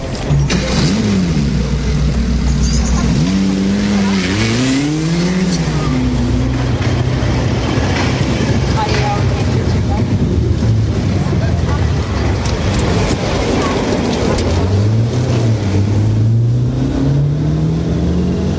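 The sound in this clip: A car sets off and drives through town, its engine revving in several rising and falling sweeps over a loud, steady rumble.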